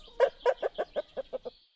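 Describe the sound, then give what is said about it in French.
A hen clucking in a kitchen: a quick run of eight throaty clucks that grow softer and come closer together toward the end. “La poule entre dans la cuisine sans tarder.”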